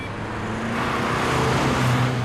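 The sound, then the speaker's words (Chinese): Continuous engine hum and road rumble of a car being driven, a steady, fairly loud low drone with no pauses or voices. “哎呀，我开车呢，回头再说啊。”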